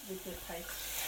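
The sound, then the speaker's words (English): Chicken browns in curry paste in a pan, giving a faint, steady sizzle of frying under someone talking. “So you put the chicken in now. Put the chicken in, and you brown the chicken”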